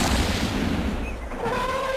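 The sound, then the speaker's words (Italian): A gunshot: a loud, heavy blast of broad noise that decays into a rough, fading tail, with faint tones lingering afterward. “Il leone stava per salutare a sua volta quando si udì il primo sparo.”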